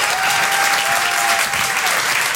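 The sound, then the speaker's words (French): Audience applause for the MC of a comedy show, a thick, even wash of clapping that stays loud and steady from start to finish. “Merci beaucoup, faites un applaudissement pour notre MC.”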